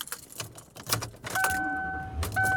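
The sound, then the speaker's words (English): Keys jangle inside a car on a trip by road, then a steady electronic chime sounds twice over a low, continuous vehicle rumble. “And I am driving to my mother-in-law's.”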